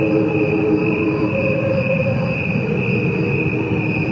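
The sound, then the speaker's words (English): Cricket chirping slowed down to roughly the pace of human metabolism, becoming a steady, sustained chorus of layered tonal hums with a thin high band on top, holding an even level throughout without breaks. “it was slowed down by the amount of times that crickets' metabolism is faster than humans, you know. And then when it was slowed down, they sound like this.”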